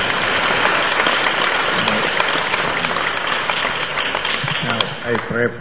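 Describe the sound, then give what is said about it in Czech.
A church audience gives sustained, dense applause for Jesus during a service. The clapping holds a steady loud wash throughout, and voices rise briefly near the end. “Zatleskejme Ježíšovi.”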